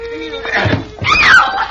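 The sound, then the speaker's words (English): Thud and clatter of a man tripping over a chair in a radio drama fight scene: a couple of dull impacts amid loud, shouting and screaming voices. “What is this on the floor under my feet? He tripped over a chair.”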